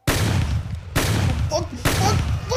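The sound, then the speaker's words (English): Gunfire from a shootout playing on a TV: three sudden loud bursts, each opening with a sharp crack and trailing into a sustained rumbling roar, with no pause between them. “Fuck, what the fuck? Look at the TV. Doobie Man is shooting back.”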